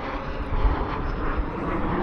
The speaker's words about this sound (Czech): Následují dopravní letouny CASA. A v doprovodu dvou letounů JAS-39 Gripen, také dopravní Airbus.